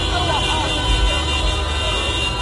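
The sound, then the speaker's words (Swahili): Car horns honking as celebrating crowds drive through the streets of Algiers at night: steady blaring tones sound together over crowd noise and a low traffic rumble. “Mamia wakazi wa Algiers, mji mkuu wa Algeria, waliposikia tangazo hilo walijitokeza usiku ndani ya magari yao wakipiga honi na makelele kusherekea.”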